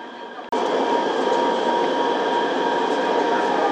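A metro train arrives at a station, heard from inside: a brief cut gives way to a loud, steady rolling rumble and hiss of the train in motion that holds unchanged to the end.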